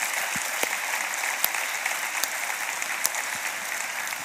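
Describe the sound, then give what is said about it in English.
An audience applauds to welcome a guest with continuous, even clapping that holds a steady, full level throughout, with a few sharper individual claps standing out. “Summit family, would you put your hands together and welcome Jonathan Almonte.”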